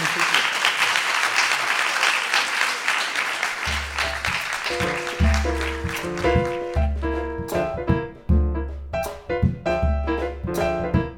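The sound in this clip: Warm audience applause thanking an author at the close of a talk before a book signing, steady clapping that fades as music with a repeating bass and melody enters and carries on alone.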